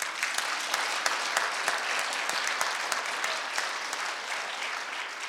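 Steady applause from an audience fills the whole stretch: dense, even clapping at a constant loud level, with no talk over it.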